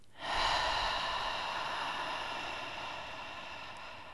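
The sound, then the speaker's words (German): A slow, relaxed exhalation during a breathing exercise: one long, airy breath that swells quickly, then fades gradually over about four seconds, soft and alone. “Nochmal einatmen. Und ganz entspannt ausatmen.”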